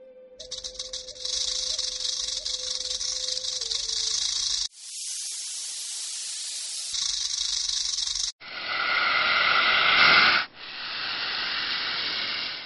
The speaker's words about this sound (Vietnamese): Tiếng vảy rắn cọ sát cùng với tiếng kim loại chói tai, chỉ có khi rắn thẻ lưỡi nhả tiếng, tất cả đều không giống với bất kỳ loại rắn nào.